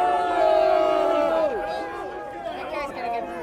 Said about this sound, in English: There is this guy, there is a guy who's yelling, a Trump protester that is yelling in the middle of the protest. He's now getting booed.